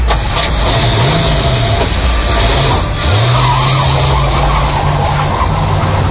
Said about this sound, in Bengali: Driver, গাড়িটা আর একটু সামনে নাও।